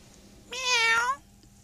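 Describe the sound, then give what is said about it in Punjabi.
A cat gives a single clear meow, short and mid-to-high pitched, heard alone against a quiet background. “ਮਾਣੂ ਬਿੱਲੀ”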